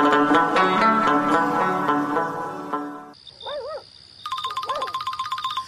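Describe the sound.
A phone ringtone rings in a rapid, rhythmic electronic trill of bright repeated pulses. It comes in after a stretch of music and a few short wavering calls.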